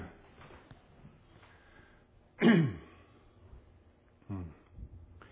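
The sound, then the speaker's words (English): A man clears his throat while reading scripture aloud, after a catch in his throat: one loud, rasping clear stands out from near-silence, then a shorter, softer second one follows. “Excuse me. Had a catch in my throat.”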